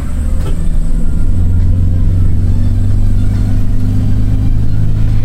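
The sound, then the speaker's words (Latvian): A car speeds along a road in Syria between Damascus and Aleppo, its engine giving a steady, loud low rumble and droning hum that stays constant throughout with no breaks. “Mēs braucam ļoti ātri, jo Alepo, ja vien ceļi būs labvēlīgi, pēc pulksteņiem nokļūsim līdz ar tumsas iestāšanos.”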